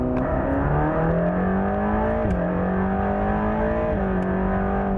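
A car engine accelerates as the throttle is applied. The strong, smooth engine note climbs steadily in pitch, drops briefly twice and then climbs again. The engine sound is loud and continuous, with no talk.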